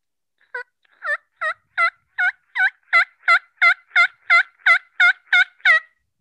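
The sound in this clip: A hunter imitates wild turkey calls with a steady, evenly spaced run of yelps. After a faint first note, more than a dozen sharp, clear calls follow, growing slightly louder toward the end.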